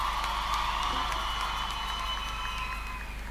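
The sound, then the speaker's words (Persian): Audience applause honoring a singer at a music performance, an even, sustained patter of many hands clapping with faint cheering mixed in. “به افتخارش دست بزنیم.”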